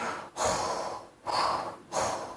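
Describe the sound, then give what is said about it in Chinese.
A voice imitates the snoring of someone asleep inside a room: three rasping, breathy snores in an even, steady rhythm, each loud and about half a second long, with short pauses between them. “就在这时，里边呢有些呼噜之声，”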